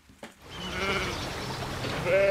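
Sheep bleat while grazing around large bronze sculptures, giving wavering, tonal cries over a steady soft background. A louder, clearer bleat rises near the end.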